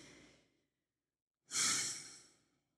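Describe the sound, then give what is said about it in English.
A deep breath in and out, heard alone: a soft intake fades into a short silence, then a loud, long, breathy exhale like a sigh swells up and slowly trails off. “literally take a deep breath with me.”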